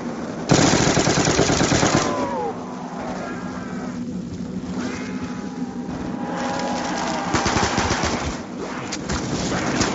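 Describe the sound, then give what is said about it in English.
Rapid machine-gun fire aimed at zombies in a video game, a dense, continuous rattle of shots lasting the full length, with other game noises blended underneath. “I shot a bunch of those zombies that are on your ass.”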